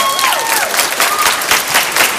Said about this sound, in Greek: Συγγνώμη, χειροκρότημα εδώ. Έλα!